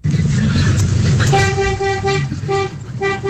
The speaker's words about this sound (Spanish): Este pito es más grueso. Ese sí, es como de camión, ¿no? Como sí, de camión, a ver. Es un doble troque.